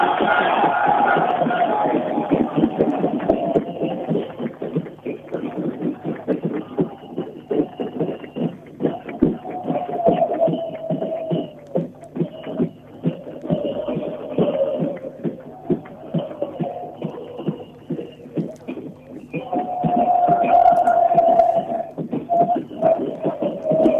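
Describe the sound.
A crowd celebrating in front of the government house, with steady rhythmic drumming pulses beneath a continuous mass of voices that swells louder near the end.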